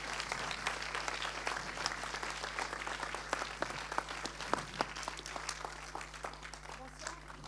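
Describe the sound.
A cinema audience applauds steadily to welcome director Émilie Deleuze at a film premiere presentation, a continuous patter of clapping over a low electrical hum.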